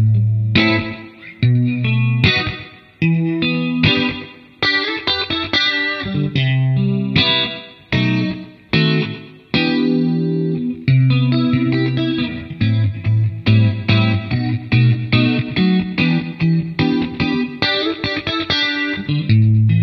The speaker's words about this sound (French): Voilà, très joli son, un son clair. Là, je vous ai mis du chorus, mais on peut tout à fait aller le retirer.